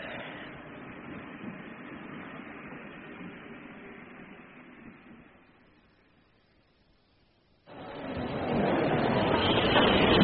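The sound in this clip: Rumbling rail noise comes from the Continental Express from Dover arriving at a station platform. A steady broad roar fades to near quiet, then returns abruptly and louder toward the end.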